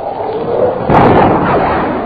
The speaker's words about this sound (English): There's the boom. Yeah. Jordan's gone through the sound barrier. He must be diving to do that.